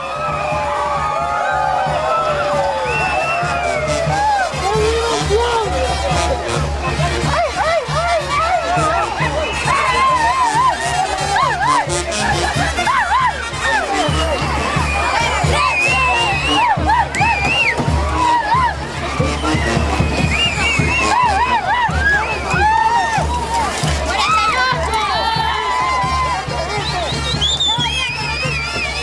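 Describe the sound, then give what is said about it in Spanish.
Festive crowd hubbub at a Ahuizotes celebration, with many voices talking, shouting and cheering together. The din stays loud and unbroken, with brief shrill calls rising above the babble. “Escuchábamos un poco del ambiente que se vivía años atrás en esta celebración de los Ahuizotes”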